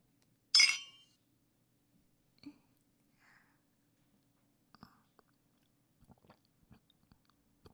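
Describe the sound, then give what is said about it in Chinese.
Glasses clink once in a drinking toast among friends, a single bright, ringing chink, followed by scattered faint small clicks and knocks in otherwise quiet surroundings. “那我们几个一起干一杯吧。”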